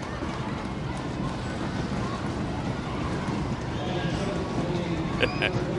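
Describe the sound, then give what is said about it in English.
Kids stomping in the stadium seats at a baseball game after a strikeout, a steady dense rumble of thuds mixed with crowd noise. “Stomp for every strikeout. Seems to be the approach today down in the seating bowl from the kids.”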